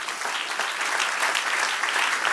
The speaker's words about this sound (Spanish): Dele un aplauso al que reina.